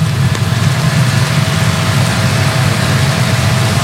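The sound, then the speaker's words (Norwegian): A limousine carrying the Norwegian royal family drives past, a steady low engine rumble blended with broad road noise, fairly loud and continuous throughout. “Og der kommer også limousinen med kongefamilien. Og dronning Sonja kjørte også nettopp forbi, kunne vi se her.”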